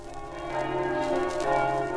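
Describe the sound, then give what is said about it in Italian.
Church bells ring for a wedding procession in Aviano, a dense, continuous peal of overlapping tones that swells slightly and holds steady, with no voices. “Le campane annunziano e seguono il corteo che dalla casa della sposa si avvia alla chiesa.”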